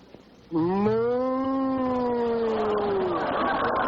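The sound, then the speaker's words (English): A human voice imitates a cow mooing, giving one long, drawn-out moo that starts abruptly, rises slightly in pitch, holds steady and then trails into a breathy, rough end. “moo. Hey, Gertrude, the cow. I'm in love with a cow.”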